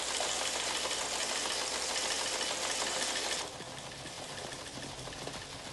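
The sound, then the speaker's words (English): A teleprinter typing out a message in a room full of such machines makes a continuous rapid mechanical clatter, louder for the first few seconds and then settling to a slightly quieter, steady rattle. “A teleprinter types out a message in Russian, but in Roman script. People pass through a room which is full of such machines.”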